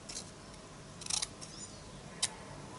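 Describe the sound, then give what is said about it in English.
Scissors cutting something out of paper make a few faint, crisp snips at irregular intervals, with quiet stretches between them. “So I'm gonna have to cut out”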